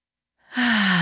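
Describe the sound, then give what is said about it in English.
One deep, audible breath begins after a brief silence and swells quickly into a breathy, sigh-like rush with a faint voiced hum that drifts slightly lower in pitch. “Let's take a collective deep breath before I get into this one because it's a doozy. So here we go. Air out. Air in.”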